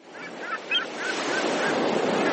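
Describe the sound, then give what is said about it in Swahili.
Waves breaking on a sea beach make a steady, broad wash of surf that swells slightly in the first moments and then holds an even, rushing roar through the short stretch. “Nikiwa katika ufuo huu wa bahari”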